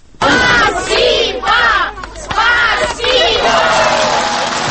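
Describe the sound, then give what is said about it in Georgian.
A large crowd shouts and cheers loudly in repeated surging waves to greet the Russian president arriving in Tskhinvali, the massed voices rising and dipping between bursts. “აი ასე ტაშითა და შეძახილებით დახვდნენ თვითაღიარებული რესპუბლიკის მოქალაქეები რამდენიმე თვის წინ ცხინვალში ჩასულ რუსეთის პრეზიდენტს.”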